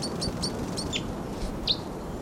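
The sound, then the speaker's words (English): Several short, high chirps come from birds swooping down, repeating quickly at first and then more sparsely over a constant noisy background. “Birds may be coming down. Oh, there they go. Oh, here they come.”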